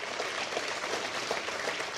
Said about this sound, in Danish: Tilbage i rumcenteret bliver der klappet over den succesfulde opsendelse.